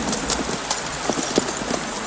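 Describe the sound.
A walking horse's hooves clip-clop in a steady, even rhythm, with many light hoof strikes over a constant background hiss and no voices.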